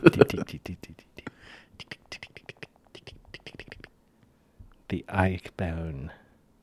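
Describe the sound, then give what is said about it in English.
Many light, quick taps sound from typing on an iPad's on-screen keyboard with key clicks on. A voice comes in briefly near the end. “Me typing. I like the click sound, man. No. It's one of my other guilty pleasures. I like the clickety-clacks. Like this.”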